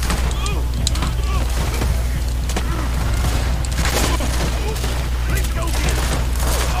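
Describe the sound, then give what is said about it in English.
Gunshots from a carbine repeater in a video game: several sharp, booming cracks at irregular intervals over a constant low rumbling game soundscape. “Oh, I'm shot! Killed by a stranger, shot with a carbine repeater.”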